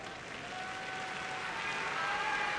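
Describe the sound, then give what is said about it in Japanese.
A crowd at a sumo tournament applauds a ring announcement: faint, steady clapping from many hands that swells slightly toward the end. “愛知県春日井出身というアナウンスに大きな拍手が起きました。”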